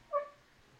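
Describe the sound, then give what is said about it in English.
A dog gives a single short, faint bark with a tonal, yelping quality, followed by quiet. “Why'd you bark at me?”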